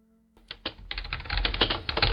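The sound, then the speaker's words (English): Computer keyboard typing starts after a moment of quiet with a few scattered key clicks, then builds into a fast, dense run of many clattering keystrokes. “The clickety clack of the keyboard while you listen at work. Annoying, isn't it?”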